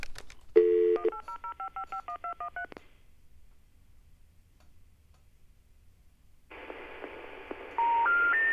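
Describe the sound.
Touch-tone dialling of a toll-free number, heard as a rapid, steady string of key beeps. After a silence comes line hiss, then three rising intercept tones marking a disconnected number.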